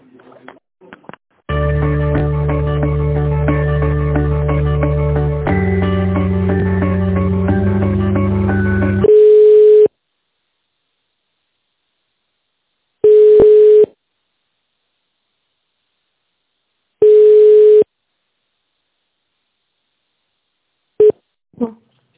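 Telephone line sounds play while an office call is transferred to another department. A looping on-hold melody runs first, then a few evenly spaced single tones, each followed by silence.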